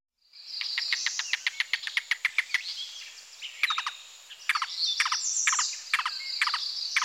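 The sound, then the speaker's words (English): A yellow-billed cuckoo calls: a rapid run of dry, clucking high notes followed by slower, spaced notes in small groups, clear and alone. “Yellow-billed cuckoo.”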